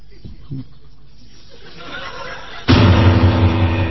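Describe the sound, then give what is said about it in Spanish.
A pistol shot in a Spanish-language radio drama bursts out suddenly and loudly after a stretch of quieter voices and chuckling, then rings into a dense, sustained tail. “Ahora tiene la pistola en la mano, tiene que usarla.”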